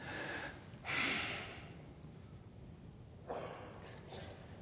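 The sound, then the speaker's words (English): A person snuffing: heavy breaths forced through the nose with a sigh, two louder breathy bursts separated by a quieter stretch, soft and alone without speech. “That word snuffed means to breathe heavy through your nose with a sigh.”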